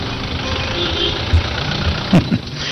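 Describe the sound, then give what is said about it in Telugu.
Auto rickshaw engine idling in a steady, rough low rumble with a continuous rattling texture and a few brief louder knocks toward the end. “ఇదిగో auto కూడా వచ్చింది.”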